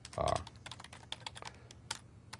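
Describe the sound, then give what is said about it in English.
Keystrokes on a computer keyboard as a line of code is typed: many quick, irregular clicks of varying loudness, with one heavier thump near the start and no voices. “Let's try to write a line of code that actually calls this.”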